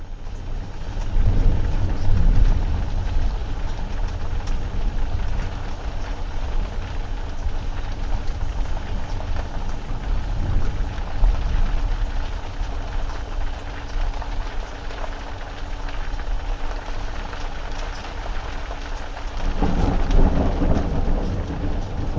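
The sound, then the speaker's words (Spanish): Heavy rain pours steadily during a thunderstorm, heard from inside an Egyptian temple. Deep thunder rumbles swell near the start and again at the end. “sonido grabado en el propio Templo de Devoz un día que andaba yo haciendo un vídeo por allí y se desató una gran tormenta que incluso me impidió salir del propio templo donde estaba dentro.”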